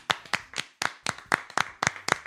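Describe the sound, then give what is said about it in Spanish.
An audience claps in applause: a short run of separate hand claps in a loose, fairly steady rhythm, fairly quiet, with no voices. “Yo creo que se merece el aplauso, ¿eh? Venga.”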